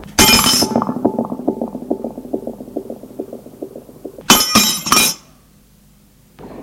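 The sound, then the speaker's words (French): A window pane is struck with a shoe and breaks: a sharp glass crash at the start, then a second cluster of bright shattering crashes near the end before quiet. “Il se déchausse et avec sa chaussure donne un coup à la vitre.”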